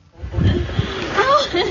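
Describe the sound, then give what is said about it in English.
Flood water in a Himalayan valley on the Nepal-Tibet border, three days after a flash flood: a steady sloshing, splashing wash, with a voice rising over it in the second half. “This is the sound of the flooding 3 days on.”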